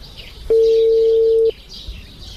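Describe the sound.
A mobile phone call being placed gives a single steady electronic tone that lasts about a second and then stops. Faint bird chirps continue throughout.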